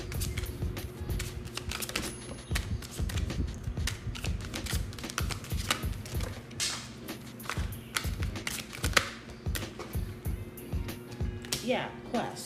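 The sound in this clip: Tarot cards being shuffled and drawn: many quick, dry taps and flicks of card stock in a loose rhythm, running under a person talking.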